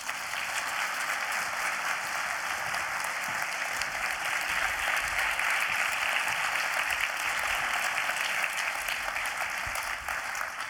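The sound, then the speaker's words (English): Warm audience applause greeting a guest: continuous, dense clapping that holds at an even level for around ten seconds without any talk over it. “Please welcome Katy Tur.”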